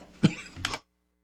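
Two short, rough coughs or throat-clearing bursts from a person with seasonal allergies, the second slightly longer, followed by silence.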